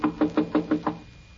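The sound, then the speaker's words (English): Knuckles rap on a closed office door: a quick, even series of about six solid knocks, then silence. “His door's closed. We better knock.”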